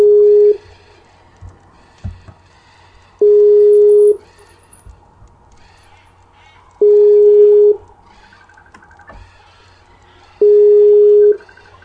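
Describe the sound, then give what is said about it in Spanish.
Telephone line tones while a number is being called: four steady, evenly spaced tones of about a second each, separated by a few seconds of quiet with faint background noise. “Vamos a ver, vamos a marcar.”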